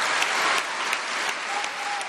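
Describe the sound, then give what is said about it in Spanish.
Applause fills the National Congress, a dense, steady roar of many hands clapping at an even loudness for the whole two seconds, with no talk over it. “Los aplausos, ¿no? Mercedes, sí. Se venía abajo el Congreso Nacional.”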